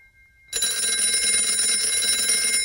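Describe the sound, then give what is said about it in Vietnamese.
A telephone rings insistently, a bright, continuous high-pitched ringing that bursts in after a brief quiet moment and keeps sounding steadily, loud and unbroken, to the end. “Chuông điện thoại đổ dồn dập.”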